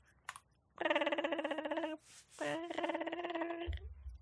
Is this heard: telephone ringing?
yes

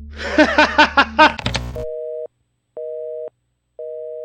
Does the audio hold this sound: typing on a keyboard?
no

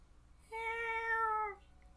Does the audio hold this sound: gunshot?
no

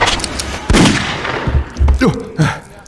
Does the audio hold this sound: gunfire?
yes

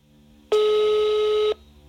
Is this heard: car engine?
no

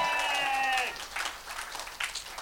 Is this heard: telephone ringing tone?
no

